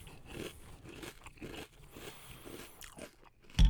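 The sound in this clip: Crunchy breakfast cereal with fiber twigs, corn puffs and rice-crisp pieces is chewed in quiet, irregular crunches, ending with one louder crunch.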